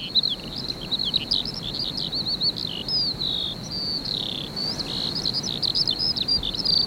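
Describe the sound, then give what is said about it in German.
Bird song from a male singing in flight high above its nest: rapid, continuous high-pitched warbling and chirping trills, fairly faint, over a low steady background rumble. “Das Männchen singt im Flug, hoch über dem Nest, manchmal eine Viertelstunde am Stück. So klang der Sommer”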